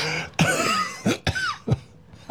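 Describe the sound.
A person coughs repeatedly in a cold house: several harsh, sharp bursts separated by short pauses, with some throaty rasp between them.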